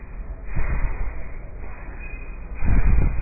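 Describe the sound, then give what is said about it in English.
Bhastrika yogic bellows breathing: two forceful, noisy breath bursts, each lasting about half a second, separated by quieter breathing. “or belly breathing, or navel breathing, or yogic breathing. Or in the Hatha Yoga, now that Swami Ramdev has made it very popular, you can do it as Bhastrika.”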